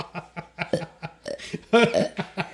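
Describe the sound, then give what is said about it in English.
A run of many short, guttural burps in quick succession, with a louder, longer belch near the end. “No, I can burp automatically.”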